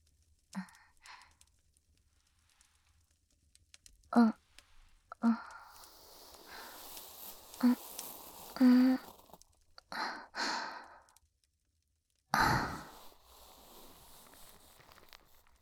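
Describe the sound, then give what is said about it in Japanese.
Scratching and rustling of an ear pick cleaning an ear, soft close scrapes arriving in irregular bursts separated by quiet gaps, a few of them louder and longer than the rest. “では、反対のお耳も耳かきさせていただきます。”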